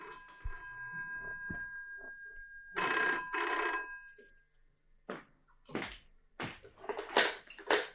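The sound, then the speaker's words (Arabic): A telephone bell rings in two short bursts, fairly faint and alone. A few sharp clicks and knocks follow after a pause. “أقوم أنا أرد على التليفون”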